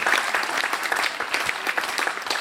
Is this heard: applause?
yes